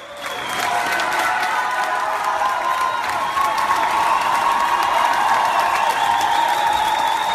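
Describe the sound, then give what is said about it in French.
Standing ovation in a Moscow theatre at the curtain calls of a stage play: dense, sustained applause from a large audience swells in within the first second, then roars on unbroken and grows a little louder midway. “Ovation debout quand le metteur en scène Kirill Serebrennikov est monté sur scène.”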